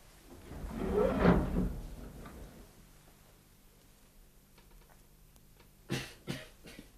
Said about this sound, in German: Soll ich das Fenster öffnen? Ja, natürlich.